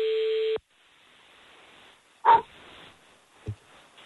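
An outgoing phone call gives a single steady buzzing ringback tone that cuts off abruptly, followed by faint line hiss and two brief clicks.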